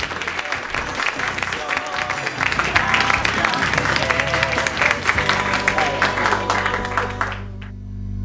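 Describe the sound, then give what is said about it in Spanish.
Applause from an audience thanking a guest, a sustained, dense round of clapping with a voice over it that fades out near the end. “Muchas gracias, un fuerte aplauso y el agradecimiento para Flavio”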